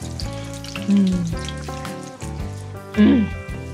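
Fritters with capers frying in oil give a steady sizzle and crackle, swelling briefly in two louder bursts, under background music.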